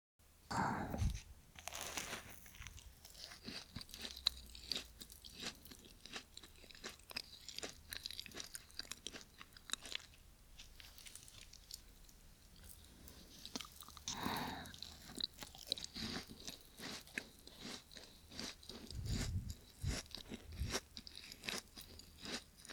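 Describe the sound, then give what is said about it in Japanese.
Crisp crunching bites and soft chewing of a macaron from a popular shop, many quiet, close mouth sounds repeating irregularly throughout. “このマカロン。ちょっと話題になってた人気店のだね。食べてみたかったから嬉しいかも。それじゃあ、いただきます。”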